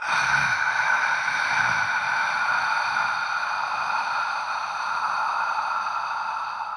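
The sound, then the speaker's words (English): Slow breathing with a long exhale forced through a constricted throat, making a soft, breathy H-like hiss that holds steady and even throughout, with no talk. “One way to do that is to restrict the back of your throat on the exhale so you're making kind of an H sound. So your inhale is and your exhale is.”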